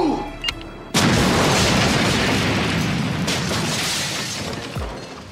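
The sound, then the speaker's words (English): Bombs exploding around an apartment complex: a sudden loud blast breaks in after a brief lead-in, then gives way to a sustained roaring rumble with shattering debris, and another burst follows midway through as the din slowly subsides. “Kimberly, for reasons that are far too complicated to explain, plants a series of bombs around the Melrose Place apartments”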